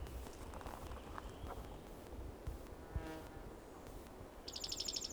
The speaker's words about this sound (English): bird singing softly